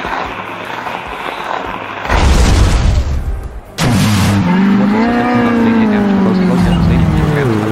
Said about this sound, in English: Mortrex used Psycho Trick.